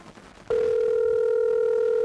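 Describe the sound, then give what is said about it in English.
A telephone dial tone sounds as a steady, loud, unbroken hum. It starts abruptly after half a second of low background noise and holds unchanged to the end. “I'll dial that number and see if I can find a solution.”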